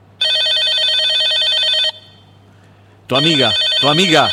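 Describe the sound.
A telephone ringtone plays as one steady, bright, continuous melodic burst, then stops. After a short pause, a voice starts talking.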